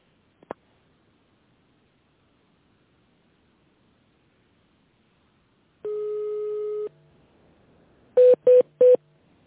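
Telephone keypad tones ring out as buttons are pressed in an automated phone menu: a faint click, then a single longer steady tone, and finally three short, evenly spaced beeps in quick succession.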